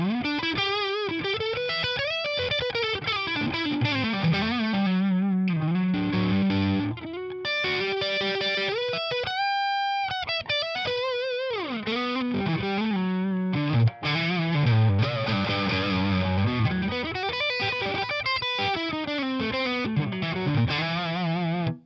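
Electric guitar on the neck pickup through an Orange tube amp set to half gain: moderately distorted, sustained melodic lines and bends played continuously, with only brief pauses and no talking.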